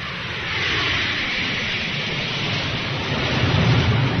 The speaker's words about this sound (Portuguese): E foi. E decolou. Zarpou rumo aos Estados Unidos. Sem passagem de volta.